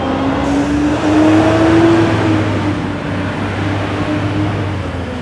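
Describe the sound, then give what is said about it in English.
A green garbage truck drives by with a loud, continuous engine rumble. Its droning pitch climbs, then eases off as the noise slowly fades, with no voices over it. “The big dump truck that was, trash truck that was driving by, all painted green. Think green, think clean, or something like that. But it doesn't think quietly.”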